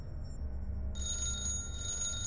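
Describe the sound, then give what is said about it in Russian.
A loud, shrill bell rings steadily and alone, with a sustained high ringing that starts about a third of the way in and continues to the end. “Меня разбудил кошмарный звонок.”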